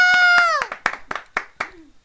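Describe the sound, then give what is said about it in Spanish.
Hand clapping cheering news of Justin Bieber's arrival at the airport, several evenly spaced claps in a steady rhythm, the first ones under a drawn-out shouting voice. “Aplausos por Justin Bieber. ¡Justin Bieber!”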